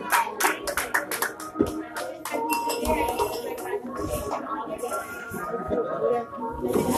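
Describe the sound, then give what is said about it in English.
Audience clapping, brisk and bursty at first, during a live event where a performer addresses the crowd. Clinks of glasses or dishes and voices mix with the claps. “Start clapping. Show some love right here.”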